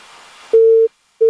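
Phone busy tone after a call disconnects: a burst of line hiss, then a steady single-pitch beep, a pause, and a second beep that is cut short. The beeps are loud.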